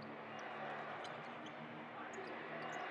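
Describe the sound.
Basketball dribbled on a pro game court, with faint repeated bounces almost buried under a steady, loud wash of crowd noise.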